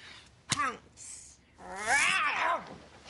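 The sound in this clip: A person's voice imitates a tiger's roar, starting with a sharp, short yelp and then a long, loud growling roar that rises and falls in pitch.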